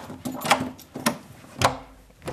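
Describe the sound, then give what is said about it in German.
A door to a secured inner room being unlocked: a few sharp clicks and knocks spaced apart, moderately loud, with no talking. “Das heißt, nochmal eine Türe aufschließen, nochmal eine Sicherung.”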